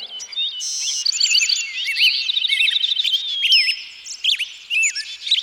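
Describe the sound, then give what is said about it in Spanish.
Small birds chirp and sing in a dense, continuous stream of high, quick tweets and trills that overlap throughout, fairly loud, with no voices. “¡Ópera de pajaritos!”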